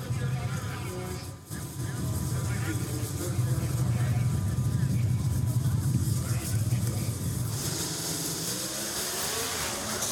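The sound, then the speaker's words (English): Two 500 cubic inch V8 drag racing engines rev at the professional final of the 2023 Gator Nationals. They make a loud, sustained roar with a deep rumble that dips briefly near the start, while a voice talks over it. “Two 500 cubic inch V8s about to be spun to some 10,500 RPM. It's the final professional final of the 2023 Gator Nationals.”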